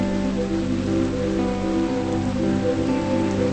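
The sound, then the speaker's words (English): Heavy rain falls steadily onto a river, making a continuous, dense hiss that holds at an even loudness throughout with no voices. “Later, the rain continues to fall heavily on the river.”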